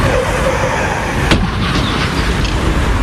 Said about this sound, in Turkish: Motosiklet kamyonete böyle çarptı.